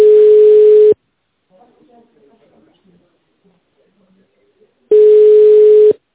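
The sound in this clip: A telephone line tone plays while a call is transferred to an operator: two steady, mid-pitched tones of about a second each, separated by a few seconds of near silence.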